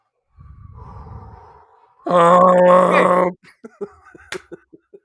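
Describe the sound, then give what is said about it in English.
A person takes a big, breathy inhale, heard as a low rush of air, followed by a loud, sustained voiced groan-like exhale and then a few short, clipped vocal bursts. “we're all going to just stop for a second. We're going to do a big inhale.”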